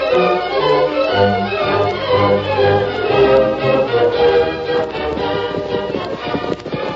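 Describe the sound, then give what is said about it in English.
Hoofbeats of horses carrying riders to a small general store in town, a sound effect in a Western radio drama: a steady run of many clip-clopping strikes at moderate loudness over a low tonal background. “The following morning, the Lone Ranger, Jim, and the two outlaws rode to a small general store in town.”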